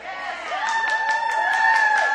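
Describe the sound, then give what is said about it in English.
A church audience cheers, with sustained whooping and shouting voices rising over scattered clapping, growing slightly louder as the crowd noise builds and holds. “Why are y'all cheering that y'all leaving your husband? Huh? That ain't nothing to cheer about.”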